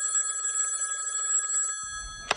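A telephone rings for an incoming call, a steady electronic tone that holds for nearly two seconds and then stops, followed by a couple of short bumps at the end.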